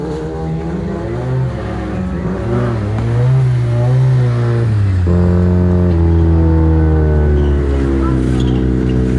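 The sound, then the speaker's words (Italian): A racing car engine is heard from inside the car during a race, a loud buzzing note that climbs in pitch through the gears, drops sharply midway, then holds and rises again. “Intanto ritorniamo anche all'interno della vettura di Solis Zanini.”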